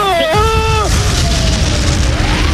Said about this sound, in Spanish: tiene la bomba y esto va a explotar.